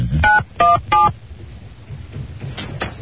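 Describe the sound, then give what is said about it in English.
Telephone keypad dialing tones: three loud, evenly spaced beeps in quick succession, then two fainter tones near the end, with no talking. “I go to PA1, right? Yes. Just dial 1.”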